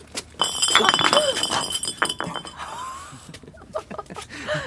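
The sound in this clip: An empty rum bottle clinking, with bright glassy chinks and rattles mixed with scuffling, while people talk over the sound.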